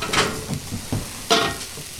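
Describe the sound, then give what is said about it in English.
Stirring and sizzling of red onion, spinach, cheddar, pepper jack and black beans being cooked for dinner, a few scraping, hissing bursts rising and falling over a steady low sizzle, with no talk. “suggest we make dinner. Red onion, spinach, cheddar, pepper jack, and then got some black beans.”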